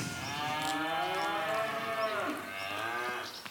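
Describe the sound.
Cattle mooing in a stable, with deep, drawn-out lowing that carries on without a break for the whole stretch and has rich harmonic overtones, wavering slightly in pitch.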